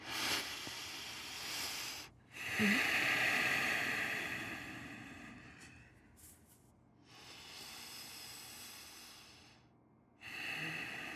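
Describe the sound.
Slow, deep breathing comes as a few long airy breaths, each a breathy hiss lasting several seconds, with short pauses between them.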